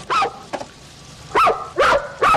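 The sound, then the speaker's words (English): A dog barks alone, four loud, sharp barks with a smaller yip between the first two, spaced irregularly with quiet gaps between them. “What was he before he became a dog? Well, he gets upset when people he doesn't know follow me home.”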